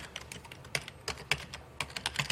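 Typing on a computer keyboard, with many quick, irregular keystrokes clicking alone at a low level.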